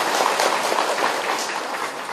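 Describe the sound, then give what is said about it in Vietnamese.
Audience applause given for a woman at a talk, a dense, steady patter of many hands that runs at moderate loudness for the whole short stretch without pause. “Rồi cho tràng pháo tay tặng cô đó.”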